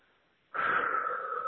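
A single deep breath starts after a short silence, a soft airy rush that holds steady and fairly loud for about a second.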